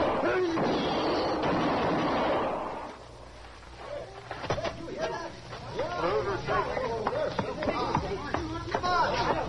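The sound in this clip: Gunshots in a Western radio drama gunfight: loud, noisy blasts fill the first three seconds, then a single sharp crack follows as voices begin talking.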